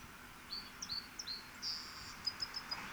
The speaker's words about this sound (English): Song Sparrow number two.